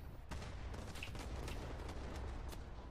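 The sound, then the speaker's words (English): Faint gunfire in a video game: several quick, muffled shots crack over a steady, noisy background. “Now, who's shooting at me?”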